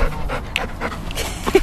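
A golden-furred, floppy-eared dog panting in a parking lot at a meet and greet: quick rhythmic breathy puffs, close and steady, with no talk.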